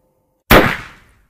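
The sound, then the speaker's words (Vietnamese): A single gunshot fired at the lock of an iron door in a basement room: one loud, sharp blast with an abrupt onset, followed by a noisy decay that fades out over roughly three quarters of a second, with no voices. “La Thiên kéo tôi ra, bảo tôi bịt tai lại, bắn một phát đạn vào ổ khóa trên cánh cửa sắt.”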